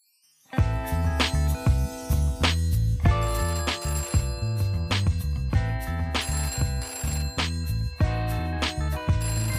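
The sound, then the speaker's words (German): A telephone rings before an answering machine picks up. Bright, tonal ringing bursts repeat many times in a fairly steady rhythm, loud and alone, with no talking. “Dies ist der Anrufbeantworter von Revolution und Ferien.”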